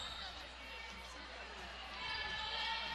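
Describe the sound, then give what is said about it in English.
Basketball dribbled on the court during a women's game, soft repeated bounces half-buried under a steady wash of crowd noise, with a voice talking over it. “Now dribbles to the right side, going into the lane for the layup”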